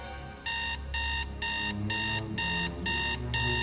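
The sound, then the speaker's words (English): Alarm clock bleeping beside a bed at 7 a.m.: seven loud, high, evenly spaced electronic bursts in a steady on-off rhythm, each about half a second long, over a low background hum. “Beth lies awake in bed. Her bleeping alarm clock reads 7 a.m.”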